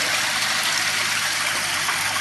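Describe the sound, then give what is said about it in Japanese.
Spring-fed river water rushes past a wooden board set up as a sluice gate, making a steady, dense hiss that stays even throughout, with no talk. “この流れてる川を板で水門代わりにして”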